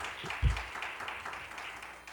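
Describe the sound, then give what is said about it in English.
A church audience gives a round of praise applause before being seated, heard as a steady, even wash of many hands clapping, with one dull low thump near the start and no voices. “Give the Lord praise. One hand clap for praise, and you may be seated.”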